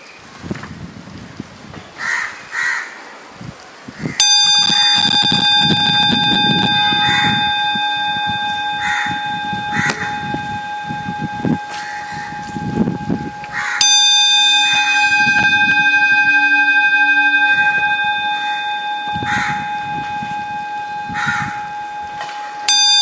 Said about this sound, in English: let's start again by listening to the sound of the bell.